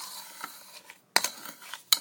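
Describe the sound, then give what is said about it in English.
A spoon mixing ingredients in a container: soft scraping and stirring broken by two sharp metallic clinks, with no talk. “I'm gonna mix some with a spoon”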